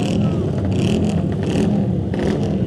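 A racing motorbike engine revving hard while bikes wait for the start of a race, a loud, steady, raspy roar with brief rises in revs and no break throughout.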